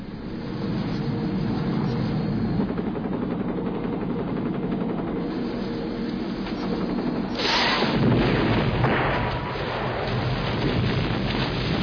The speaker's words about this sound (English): Get a good wind draft through the helicopter.